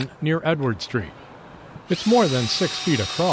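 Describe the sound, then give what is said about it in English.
A power drill whines as it bores one of several small pilot holes into the base of a 300-year-old tree more than six feet across, on Franklin near Edward Street. The steady drilling noise starts partway through, while someone talks throughout. “That's the sound of one of several small pilot holes being drilled into the base of a 300-year-old tree on”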